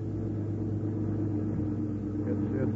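Steady low rumble of a car being driven, a radio-drama effect for a ride home from an aircraft plant at Farnborough; the engine hum runs continuously and evenly, without breaks, for the whole stretch.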